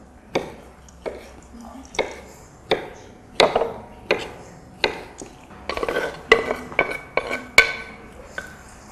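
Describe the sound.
A spoon stirs chopped hazelnuts into a muesli mixture in a bowl: many knocking, scraping strokes, regular at first, then quicker and denser toward the end.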